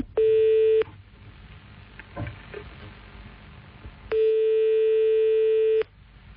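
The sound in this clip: Telephone line tones heard while calling someone back: two steady electronic tones, a short one and then a longer one. Between them is a quiet gap with faint line noise and clicks.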